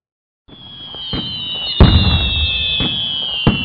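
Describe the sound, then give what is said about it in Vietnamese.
Ceremonial signal firecrackers go off nearby during a household blessing ritual: several sharp, loud bangs burst over a continuous crackling hiss and a high, steady whistling whine. “Pháo lệnh nổ gần kêu to quá, làm tôi thức giấc.”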